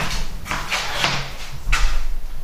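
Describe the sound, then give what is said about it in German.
A door being closed at home before a shower: a few brief scraping and knocking sounds, fairly loud, with no talk. “Schließen die Door. So, haben die Door geschlossen.”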